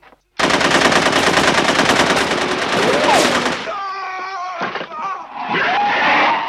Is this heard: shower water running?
no